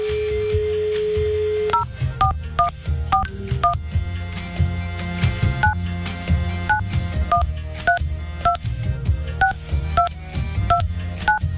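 Telephone dialing tones: a steady dial tone at the start, then a quick run of many paired keypad beeps at uneven spacing, each short and clear, with no voices.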